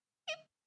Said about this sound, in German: Das ist das Geräusch eines Nashornbabys. Das hört sich an wie ein kleiner piepsender Vogel.